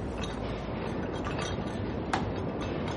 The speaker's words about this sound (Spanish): Y está la línea F. Dios. Ya, la vía de mantenimiento pasa justo debajo del edificio. Suelen trabajar de noche.